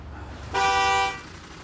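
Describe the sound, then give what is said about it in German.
A single sustained car horn honk from a car queued behind a stopped bin-collection truck, a bright toot lasting about half a second over low traffic rumble. “Die hupen ja wie verrückt.”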